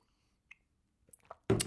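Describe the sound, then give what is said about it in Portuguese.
Sipping a cup of Portuguese tea: a few faint, scattered clicks, then a sudden loud slurp at the very end. “Fiz chá do Jerez que comprei no outro dia um, e é um chá daqueles tipo portugueses mesmo, com uma embalagem azul e branca. Uh, e, e, por acaso é um bom chá, vou dar aqui um golo.”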